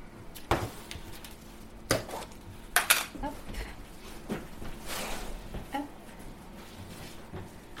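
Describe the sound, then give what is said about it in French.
Cornstarch and fromage blanc being spooned into a bowl, with faint, irregular clinks and scrapes of a utensil against the dish. “Donc, on ajoute notre maïzena, notre fromage blanc.”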